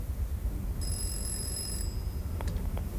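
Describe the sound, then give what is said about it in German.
A telephone rings in a railway crossing keeper's house: a thin, high ring lasts about a second over a steady low rumble, then a few clicks follow as the receiver is picked up. “Er ist beschäftigt, es klingelt gerade, er nimmt den Hörer ab.”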